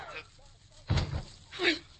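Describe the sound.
A gunshot in a radio drama: one short, sharp bang that breaks through briefly amid voices.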